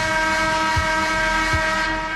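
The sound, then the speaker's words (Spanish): A train horn sounds a loud, steady, sustained chord that holds without a break for the whole two seconds. “¿Te puedo tocar la bocina?”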